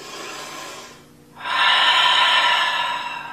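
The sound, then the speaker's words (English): A forced, loud exhalation in a breathing exercise: a softer breath, a brief pause, then a long, strong, airy rush of breath that holds steady for about two seconds before easing slightly, with no talking. “Just begin to breathe and force a loud exhalation.”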